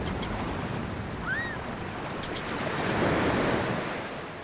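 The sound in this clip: Sea waves wash onto a beach in a steady, soft roar that swells gently toward the end, with a light rush of wind and no voices.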